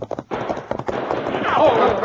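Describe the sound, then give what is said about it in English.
Horses gallop up a bank, starting with a few sharp hoof thuds and building into a dense, loud rush of hoofbeats, with voices mixed in. “The outlaws turned off, urging their horses up the bank until they had gained the cover of the trees.”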